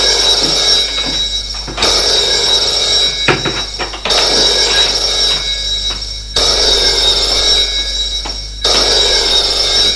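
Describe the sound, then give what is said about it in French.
A telephone rings on a desk in a hotel suite: a loud, shrill, buzzing ring in three long bursts separated by quieter gaps, with no voices. “Téléphone sonne dans la suite de François”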